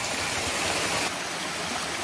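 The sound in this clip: Water running from a fountain pipe wrapped with tape after being restarted, a steady, even rushing hiss with light splashing and no voices.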